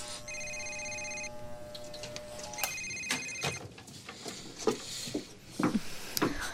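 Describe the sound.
A telephone rings with a bright electronic tone, sounding in two separate bursts, followed by several sharp knocks and irregular clatter.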